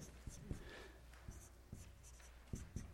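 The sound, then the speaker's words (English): Marker strokes on a board trace a big circle and two little stick figures, a faint scratching broken by several soft taps and squeaks at uneven intervals. “Big circle there. That's going to represent our world. And then draw 2 little stick figures in it.”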